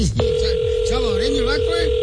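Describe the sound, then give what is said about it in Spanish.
A steady single-pitched telephone tone on a line after a number is dialed. It starts just after a brief click and runs unbroken to the end, with people talking over it. “Ya voy a marcar, güey. Vamos a llamarle entonces.”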